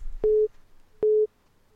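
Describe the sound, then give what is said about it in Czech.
Telephone line tone as an incoming call is picked up on a call-in line: two short, steady mid-pitched beeps separated by a brief gap, clean and alone. “A někdo volá, výborně. Takže já zvednu, opět, moment.”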